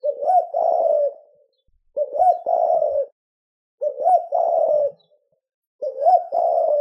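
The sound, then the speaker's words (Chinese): A human voice imitates a pigeon's cooing in a courtyard, giving four low, throaty coo phrases separated by short pauses. “这个少年就站在庭院中间，口里面发出鸽的叫声。”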